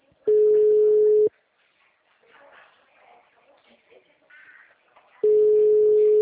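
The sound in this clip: Ringback tone of an outgoing telephone call: two steady, mid-pitched electronic tones, each about a second long and a few seconds apart, with quiet voices murmuring in the gap between them.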